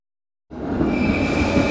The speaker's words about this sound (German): Achtung, Bahnsteig 9. Eurocity 567, Land Tirol, nach Bregenz über Salzburg, Kufstein und Innsbruck fährt ein.